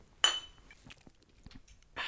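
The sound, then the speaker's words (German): A bright, ringing clink of beer glasses touched together in a toast, heard once near the start, followed by a few faint knocks and a burst of hiss at the end. “Oh, da gibt es auch ein Bier. Ja, dann lass uns doch mal hier, dann stoßen wir mal Prost.”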